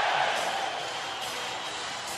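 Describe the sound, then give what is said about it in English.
A hockey arena crowd roars in a standing ovation after a playoff goal at a 2002 San Jose Sharks vs. Colorado Avalanche game, a dense, sustained wash of cheering that holds steady throughout. “A standing ovation. The crowd is on its feet for Owen Nolan.”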